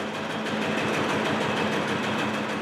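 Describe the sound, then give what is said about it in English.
A giant air pump compresses air into a storage tank at a compressed-air energy-storage plant, giving off a steady, loud mechanical drone with an even low hum and no break or talk. “When there's extra electricity, Crane turns on a giant air pump.”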